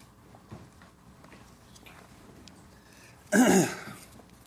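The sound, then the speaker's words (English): A single throat clear from a catch in the throat: one sharp, loud burst near the end that breaks a quiet stretch of faint low background noise. “Just a little catch in my throat.”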